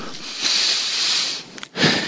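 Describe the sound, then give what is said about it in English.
An audience takes a deep breath together, a broad, breathy hiss that holds for about a second, then a brief pause and a second rush of breath. “I need y'all to take a deep breath”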